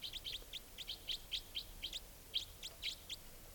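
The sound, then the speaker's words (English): A wild bird calls near cages in many short, high chirps, faint against a quiet background, delivered in a quick, uneven series of clustered notes. “The wild bird is the less forceful of the calls, and I'm trying to point at the wild bird, and she's down almost on top of the cages now.”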